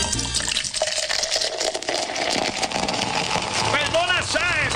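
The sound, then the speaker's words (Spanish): Cold beer pours into a glass with a steady watery rush. People talk over it toward the end. “¿Viste? Aquella, como suenan esas botellitas. Pues mire, gente, y cuando están bien frías.”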